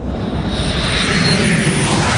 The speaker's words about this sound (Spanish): parece el inicio de un vuelo cualquiera